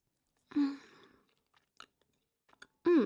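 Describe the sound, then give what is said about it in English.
Chewing and swallowing of candy-floss-flavoured food: a wet, full-bodied mouth sound opens, then a few soft, sparse clicks and smacks, then a second loud burst of mouth noise closes it. “Okay, let me just swallow this.”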